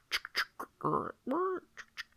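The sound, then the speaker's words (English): A person's voice imitates a croaking clock-tick sound: several short, sharp clicks around two longer, rasping, duck-like croaks in the middle, all fairly soft. “It's that, like, croaking clock tick sound that happens a lot. It's like,”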